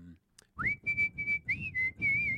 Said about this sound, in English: No, I can't help but whistle.